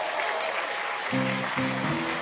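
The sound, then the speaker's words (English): Audience applause for a 16-year-old girl on her birthday, a steady wash of clapping at moderate level throughout. “Stand up. Take your applause like a young woman.”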